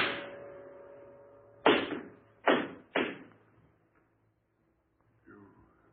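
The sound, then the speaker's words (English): Gunshots in an old radio drama: three sharp, loud cracks come in quick succession, each with a short decaying tail, followed by near silence and a faint sound at the end. “You shot me. In cold blood?”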